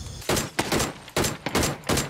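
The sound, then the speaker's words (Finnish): Video game gunfire aimed at a metal target: several sharp, loud bursts of rapid shots come in irregular succession, each a bright, crackling blast, with no talk. “Meikä ampuu tuohon metalliin.”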